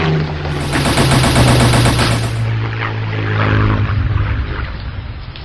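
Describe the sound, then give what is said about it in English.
Rapid machine-gun fire from an aircraft making a strafing run over a street, loud dense bursts over a steady droning engine, with the firing easing after the first few seconds while the drone continues. “It's definitely coming at us. It's preparing to make a strafing run.”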